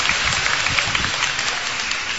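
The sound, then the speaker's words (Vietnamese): A round of applause comes from a church gathering where children act out the apostles. Dense, even clapping continues at a steady level for the whole clip. “Wow, hay quá, chúng ta cho một tràng pháo tay.”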